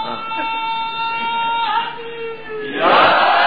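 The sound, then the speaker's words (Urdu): A crowd chants a slogan at a religious gathering in answer to a speaker's call. A drawn-out tonal voice gives way to a loud, dense burst of many voices in the final second. “ہاں بھیا نعرہ لگاؤ.”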